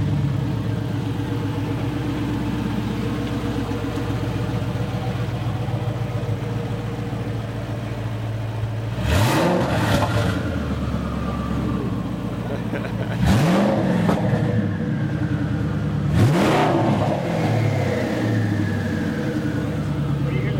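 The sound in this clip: A GTR1 supercar engine idles with a steady, deep rumble, then is revved sharply three times. Each rev swells up and spools back down to idle.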